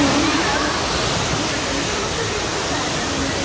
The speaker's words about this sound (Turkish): Özellikle Demre ilçesinde derelerin taşması sonucu onlarca evi su bastı.